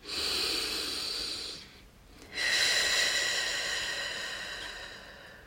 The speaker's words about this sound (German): Und ich atme.